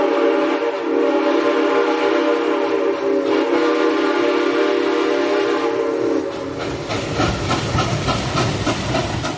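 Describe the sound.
A train sound effect begins with a sustained whistle-like tone over loud hissing steam for about six seconds. A rapid, rhythmic chugging then takes over, with no voices.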